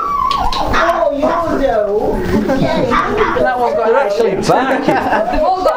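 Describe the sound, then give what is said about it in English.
Several dogs bark, yip and whine in a continuous, loud jumble of high, wavering calls with no clear pauses. “they're actually barking at you”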